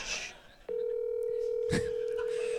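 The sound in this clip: A telephone call is placed: a brief voice at the start gives way to a steady, low, continuous phone tone that holds to the end, broken once by a sharp click.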